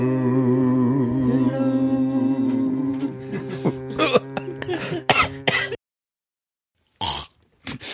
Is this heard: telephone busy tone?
no